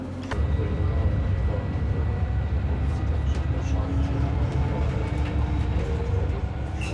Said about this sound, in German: Für die neuen Stadtbahnen ist die Steigung kein Problem. Sie schaffen die Bergfahrt locker mit 60 km/h.